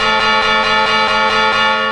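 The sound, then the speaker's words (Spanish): A clock carillon chimes ahead of the New Year midnight bell strokes. Loud layered bell tones ring steadily, pulsed by many quick repeated strikes. “¡Van a llegar el momento a las campanadas! ¡El carrillón, el carrillón!”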